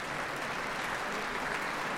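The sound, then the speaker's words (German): Applause from a large audience after a concert in a philharmonic concert hall's main auditorium: dense, steady clapping that stays even and loud throughout, with no pauses. “Ein Applaus geht weiter”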